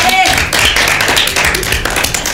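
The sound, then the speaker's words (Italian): Audience applause after a children's story, a dense, steady wash of clapping that stays loud and unbroken for the whole clip. “Bella questa storia, fatevi un applauso.”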